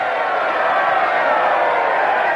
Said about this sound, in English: They nod to cheering throngs, which line the sides of the road.